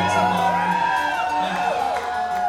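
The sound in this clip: A concert audience cheers and whoops on request, with sustained crowd noise and rising and falling tonal whoops over a steady bed.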